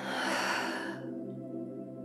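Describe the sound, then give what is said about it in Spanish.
A slow breath exhaled through parted lips during a guided breathing exercise: a soft, airy hiss lasting about a second that then cuts off, leaving a faint low hum. “Retienes un momento. Separas tus labios y dejas que el aire salga por tu boca.”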